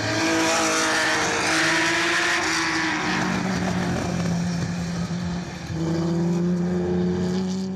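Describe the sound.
A racing car's engine roars on the Montlhéry circuit as the car, the same one raced there in 1985, arrives. The loud, sustained droning whine dips briefly and then surges again.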